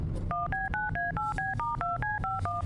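Telephone keypad dialing tones: a rapid, evenly spaced run of many short two-tone beeps, each keypress a clear steady chord, played one after another in a quick rhythm over a low background hum.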